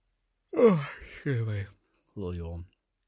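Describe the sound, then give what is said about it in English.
A person gives a contented yawn in three voiced stretches. The first opens with a falling pitch, followed by two drawn-out, mid-pitched exhalations, with no words. “contented yawn”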